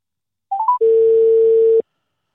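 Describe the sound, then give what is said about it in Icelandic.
Telephone ringing tone while waiting for a call to be answered: three short beeps stepping up in pitch, then one loud, steady, level tone lasting about a second before it cuts off. “Voðalega þetta lengi að hringja.”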